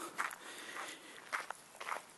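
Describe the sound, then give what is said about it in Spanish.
Footsteps of someone walking up a hill, four soft steps in a steady, unhurried rhythm, fairly faint and alone with no talk. “Ay, estoy subiendo una cuesta y joder estoy quedando sin aliento.”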